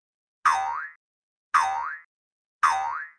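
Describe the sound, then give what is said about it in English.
Three identical cartoon boing effects for a frog hitting his head, evenly spaced and loud, each a springy twang whose pitch dips and then swoops back up before fading. “He hit his head.”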